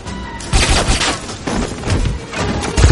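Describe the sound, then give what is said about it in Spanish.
Gunfire and crashing impacts from a shootout in the 2006 James Bond film Casino Royale, set inside a flooding building: loud, dense bursts of shots mixed with heavy thuds and smashing noise that swell and recede across three seconds. “Bond entra en el edificio. Intercambia disparos con los pistoleros.”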